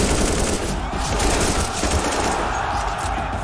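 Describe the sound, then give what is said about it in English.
Gunfire from the video game Counter-Strike, a loud, dense stream of rapid shots blurring into one continuous burst for the whole stretch, with no talk over it. “Counter-Strike is known for its visceral and satisfying gunplay.”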